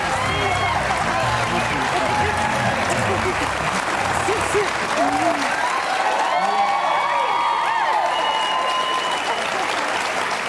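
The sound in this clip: Sustained, loud audience applause with cheering voices mixed in as Leonard Nimoy is welcomed, a dense and steady wash of clapping that holds for the whole stretch.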